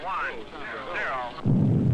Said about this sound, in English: I believe that was the blast off.